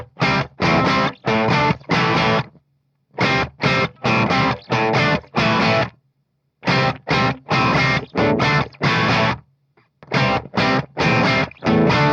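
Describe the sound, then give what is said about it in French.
An electric guitar riff with a crunchy, lightly overdriven tone plays as tight, choppy chord stabs. They come in short, punchy groups with clear silences between phrases, loud and incisive, and no voice is heard. “que je joue avec un son plutôt crunch, pas trop saturé, un petit peu. Ce qui est important, c'est que ce soit bien incisif et bien nerveux. Donc le riff est vraiment tout con, ça fait comme ça.”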